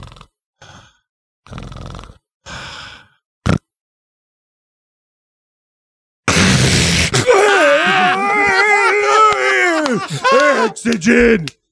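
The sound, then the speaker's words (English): A man's voice imitates sleep apnea breathing. It gives a few short, rasping breaths and one sharp gasp, then falls silent for a long pause. A loud, strained, snoring groan follows, wavering in pitch for several seconds. “This is the way CPAP, sleep apnea people breathe. All right. Here it goes like this.”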